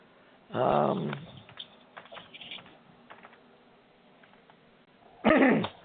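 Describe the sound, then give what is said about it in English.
People cough during a meeting: a loud, harsh burst of coughing near the start and another near the end, with fainter throat-clearing and small rustles in between, and no speech. “Everybody's coughing. Me too.”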